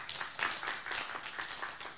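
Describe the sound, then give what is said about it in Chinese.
Faint clapping from a church audience giving glory to God during a sermon, a steady, even patter of many hands that carries on without a break. “阿们的拍手，把荣耀归给神。”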